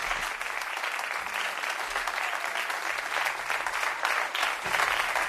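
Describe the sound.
A jazz concert audience applauds a quartet, calling for an encore. Dense, continuous clapping holds at an even, fairly loud level for the whole stretch, with no pause.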